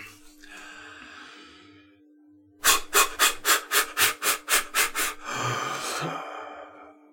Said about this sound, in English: I don't suppose, do you fancy doing the bellows breath? Do you want to give it a go?